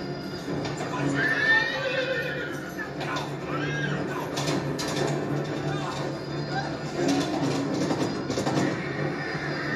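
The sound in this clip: A horse whinnies, its shrill neighs rising and wavering in loud harmonic calls, with a couple of distinct cries early on over a rough, steady background.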